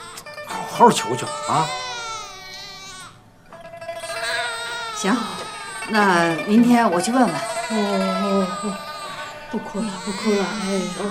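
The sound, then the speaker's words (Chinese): A hungry baby cries in loud, wavering wails, pauses briefly, then resumes with sobbing, rising and falling cries. “这孩子呀，不是病了，是饿了。这可咋办呢？ 没他娘的奶吃，那孩子能不哭吗？”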